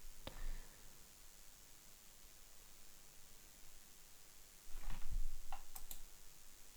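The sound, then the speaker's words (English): Faint clicks of a computer mouse as someone clicks through definitions in an online dictionary, a few soft ticks scattered over a steady background hiss. “So I think I'm going to click on more definitions. Going down, down, down to find the right one.”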